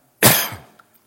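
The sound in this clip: A single sharp cough from a tickle in the throat, a loud burst that tapers off quickly, with no talking.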